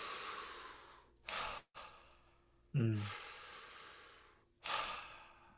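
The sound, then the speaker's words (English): Breathwork practice: a deep, activating breath drawn in, then a long, relaxed exhale. A few soft, airy breath bursts stand out against a steady faint hiss, with no talking. “So after a big activating in-breath, full relaxation.”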